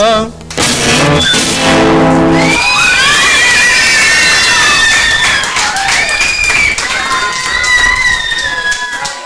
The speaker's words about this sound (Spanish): Bueno, caramba, ¿quién no quisiera tener un público como ustedes? La próxima vez que haga un concierto lo voy a invitar a toditos ustedes. Claro, claro. Muchas gracias, pues, por los aplausos.